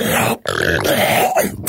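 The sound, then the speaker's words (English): A voice imitates a sharp intake of breath followed by a long, loud, rasping fart, with the short inhale cut off before a growling, buzzing blare of about a second. “show us if there's an intake sound and then just a fart extraordinaire”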